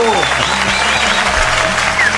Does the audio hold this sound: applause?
yes